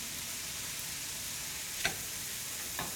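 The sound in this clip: Peas fry in a pan for an alfredo sauce, giving off a steady, even sizzle with a couple of faint pops near the end, and no talking.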